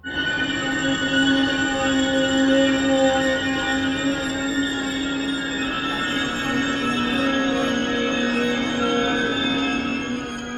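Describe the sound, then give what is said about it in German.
A train getting under way again, heard as loud, continuous rumbling with squealing wheels and a steady high whine that holds throughout, with no voices. “Der Zug geht wieder. Er verschluckt die Nachzügler. Er ist fahrbereit.”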